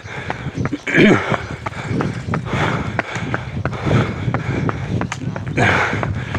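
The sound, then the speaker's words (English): Footsteps of a person running at a slightly slowing pace, many quick, rhythmic thuds with breathy noise between strides. “I'm just continuing to run. I'm just slowing down the pace slightly.”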